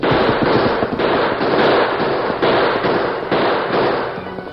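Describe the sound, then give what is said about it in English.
Rapid gunfire from guns blazing during a mounted charge at dawn in a Western drama, with a Gatling gun in the scene. Many loud, overlapping cracking shots form a dense, continuous barrage without talk, easing slightly at the end. “the Lone Ranger charged down upon them, his guns driving rivets of orange fire into the dawn light.”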